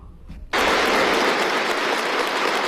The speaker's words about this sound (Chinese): 当习近平走进会场时，全场响起热烈掌声